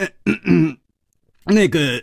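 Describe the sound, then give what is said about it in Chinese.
A voice imitates a dry cough and throat clearing: two short, voiced bursts separated by a brief silence. “楚留香干咳了两声，笑着说：”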